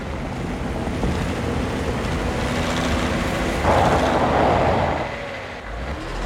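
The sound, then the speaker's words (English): A truck engine rumbles as the truck pulls off the road, stops, and reverses up the roadside bank while turning around. The noise is rough and broad, swells through the middle, then eases near the end. “He drives the truck a little way off the road, stops and reverses it as he turns around, pushing the back wheels up the bank of the road.”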